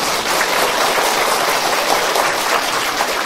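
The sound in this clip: Applause from an audience at a Buddhist monk's meditation talk, a dense, steady patter of many hands clapping that stays loud and even throughout.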